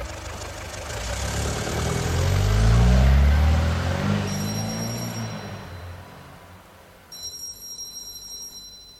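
A taxi car drives away, its low engine rumble swelling to a peak and then steadily fading out, with no talk over it.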